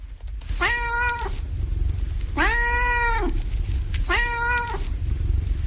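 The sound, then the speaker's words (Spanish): A cat yowls for attention in three long, drawn-out, strongly harmonic cries. Each cry swells up at the start and sags at the end, standing loud and clear over a steady hiss with short gaps between them. “Pero también tenemos aullidos, digamos, de gato.”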